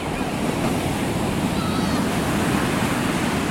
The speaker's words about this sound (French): Assis à l'ombre sur des banquettes fabriquées à partir de palettes recyclées, Saliou et ses amis font face à la mer, au bord de la plage des Mamelles et de son sable blanc.